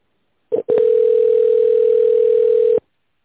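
A telephone line tone plays while the caller waits on the line to be connected to an operator. A short burst comes first, then a steady, unbroken single-pitch tone holds for about two seconds and cuts off abruptly.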